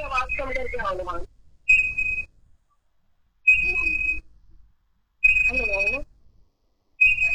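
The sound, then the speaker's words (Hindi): A whistle is blown repeatedly in the background during a phone call, giving several short, shrill, steady blasts separated by pauses while people talk. “मुझे लगता है आज ये सीटी बजती रहेगी और हम बात कैसे करेंगे। तो अब आपके पीछे कोई सीटी बजा रहा है क्या बच्चा?”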